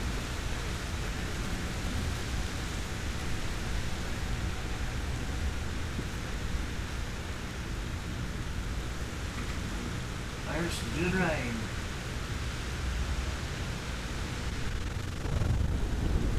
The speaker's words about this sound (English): There's some good rain.